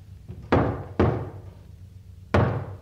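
Three heavy knocks strike a door, two in quick succession and a third after a longer pause, each a loud, dull thud with a short fading tail and no voices.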